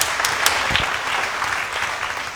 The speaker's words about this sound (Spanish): Demos aplauso a nuestros hermanos.